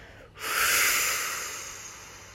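One long, deep breath during a children's mindfulness meditation, heard as a broad airy rush that swells quickly and then slowly fades.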